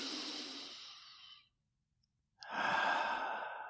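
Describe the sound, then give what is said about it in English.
A person takes a deep, slow breath: a long, airy, sigh-like breath sound, a brief silent pause, then a second long breath. Both are soft and breathy, with no talking. “I think I'll take a breath right now.”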